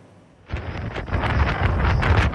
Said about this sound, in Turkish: Hindistan'da kum fırtınası hayatı felç etti.